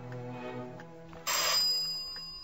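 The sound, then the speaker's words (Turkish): A doorbell rings with a bright, buzzy electric tone that cuts in abruptly partway through and holds steady to the end, over a continuous low tonal background. “Kapı çalıyor.”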